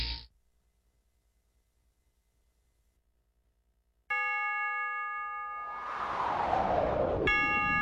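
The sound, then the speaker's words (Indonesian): Two bright ringing chime strikes mark three in the afternoon, each sustaining with clear, steady tones. Faint low rumbling precedes them, and a broad noisy wash swells between the strikes. “Setiap kali engkau mendengar bunyi jam yang menunjukkan pukul 3 sore, benamkanlah dirimu sepenuhnya dalam kerahiman ilahi”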